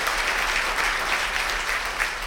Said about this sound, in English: Everybody in North Attleboro, let's give them a big hand and welcome them in, listening to us.